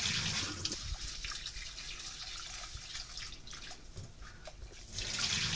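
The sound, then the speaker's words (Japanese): Water sloshes and trickles as rice is gently rinsed by hand, a steady, continuous wash of splashing and dripping with no voices. “一度水を捨てます。最初の水はすぐ捨ててしまってください。そしたら 2,3 回お米を優しく洗うように研いでいきます。”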